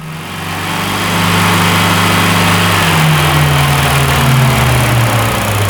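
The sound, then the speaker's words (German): A car engine is revved to recharge the battery through the alternator. Its loud, steady mechanical drone builds over the first second, then holds with only slight shifts in pitch, and no voices are heard. “Nur ein bisschen Gas geben, das Batterie wieder ein bisschen lassen, über Alternator.”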